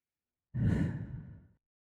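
A slow, breathy exhale marks the out-breath of a breathing exercise: breathe in for four counts, hold for four, breathe out for six. A single soft sigh-like release lasts about a second and fades gradually.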